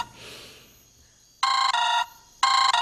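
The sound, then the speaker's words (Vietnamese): A telephone rings late at night after a near-silent start. A bright, loud electronic ring sounds in two bursts, each with a brief stutter, separated by a short pause. “Ôi, ai mà gọi giờ này vậy?”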